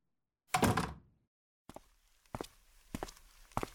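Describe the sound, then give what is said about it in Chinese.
A door being closed with one loud, heavy thud that decays briefly. After a quiet pause, a few lighter thumps and knocks follow, like footsteps, with no talk. “进来吧，记得把门关上。”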